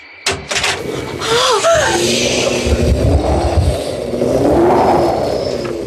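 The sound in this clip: A cargo hatch door opens in a radio drama, with air being sucked out: a sudden sharp onset gives way to a loud, sustained roaring rumble that swells and surges unevenly until the end.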